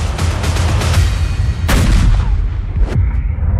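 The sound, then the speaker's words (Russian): Heavy artillery fire from a Grabin S-40 conical-bore gun: loud booming blasts over a dense, continuous rumble, with one sharp report standing out near the middle and another toward the end. “Артиллерия. Коническое орудие Грабина С-40.”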